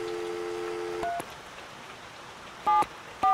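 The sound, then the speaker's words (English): A telephone number being dialed on a keypad, heard as a few short, bright two-tone beeps at irregular intervals. They sound over a soft, steady hiss, and a low steady tone plays at the start. “What Dick didn't know is I was dialing my Aunt Teresa's number.”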